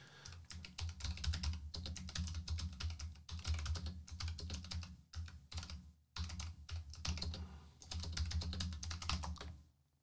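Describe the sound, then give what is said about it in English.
Rapid typing on a computer keyboard while entering a web address, heard as dense runs of clicking keys in several bursts separated by brief pauses. No voices. “I had to type all that in to get NAS.”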